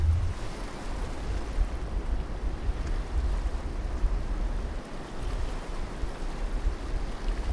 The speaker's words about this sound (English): You can hear it, and it's so much of a rapid, you can hear it in the background.